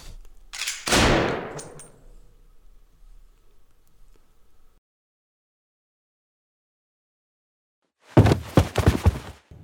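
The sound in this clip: A single loud gunshot cracks out and decays over about a second, followed by a long stretch of near silence before a voice begins speaking near the end.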